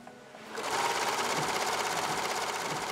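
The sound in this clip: A sewing machine stitching used animal feed bags in a volunteer workroom in Amherst, Massachusetts, starting after a brief quiet moment, then running as a steady, fast mechanical whirr with a rapid rhythmic needle pulse.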